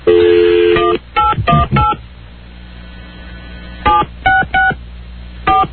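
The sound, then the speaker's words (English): Touch-tone telephone dialing on a long-distance call to California: a steady tone gives way to loud clusters of short DTMF beeps, separated by brief pauses. “Don't miss dial. We're calling out to California.”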